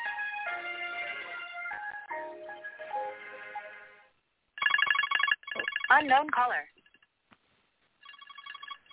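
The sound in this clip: A phone ringtone plays for an incoming call during a group prayer gathering. It begins as a stepping melodic electronic tune, then turns into brighter chirping, trilling bursts, goes quiet briefly, and starts again.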